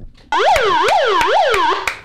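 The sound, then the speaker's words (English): An alarm sounds at full volume, a loud electronic wail that sweeps up and down in pitch again and again, with five sharp clicks punctuating it. “Unfortunately, the alarm has to go full volume.”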